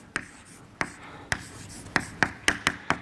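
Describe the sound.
Writing an equation on a board, heard as eight sharp, clicking strokes: spaced apart at first, then coming faster in a quick run near the end.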